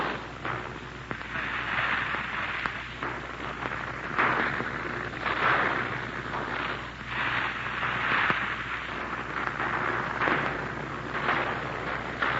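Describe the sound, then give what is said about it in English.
Anti-aircraft fire from ringed armed defenses, a long run of repeated booming bursts at irregular intervals, loud and sustained with no pause. “just where that anti-aircraft fire is coming at the present time. You see, we are more or less ringed by armed defenses.”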